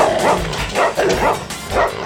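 A dog barking and yipping as it goes after a fox in its burrow, a few loud, rough barks in quick, uneven succession.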